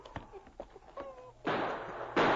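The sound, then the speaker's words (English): Gunshots in a firefight with a hidden gunman among rocks, two loud sharp blasts after a few faint clicks, each blast leaving a short rough tail. “Sergeant, I think I got him. He stood up to shoot at you and I saw him fall.”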